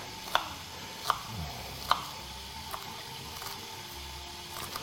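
An onion being chopped with an onion knife, producing a few crisp, evenly spaced cutting taps over a soft steady background hiss, some strikes fainter than others.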